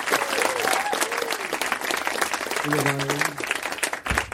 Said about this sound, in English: how about a hand for Susan and Jonas over here opening the show?